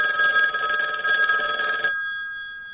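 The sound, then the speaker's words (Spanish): A telephone bell rings with an incoming call, a loud continuous metallic trill that cuts off abruptly, leaving a faint lingering tone. “Tenemos otra llamada de un padre de familia.”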